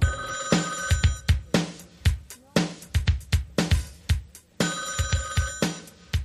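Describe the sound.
A telephone bell rings for an incoming survey call in repeated loud bursts, each a rapid clattering series of strikes, returning in a steady rhythm with nothing else heard.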